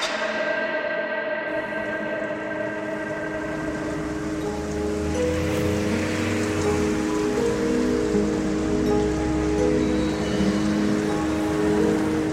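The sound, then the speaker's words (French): Light, fine rain falls over Oslo in the morning, making a steady, soft hiss that holds evenly from start to finish. “Ce matin, une pluie fine s'abat sur la capitale norvégienne.”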